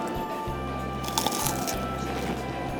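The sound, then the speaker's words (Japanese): Someone bites into freshly fried french fries, making one soft, brief, squishy bite that is fairly faint over a steady low hum. “ごく普通のフライドポテトなんですけれども、 ちょっといただきますね。”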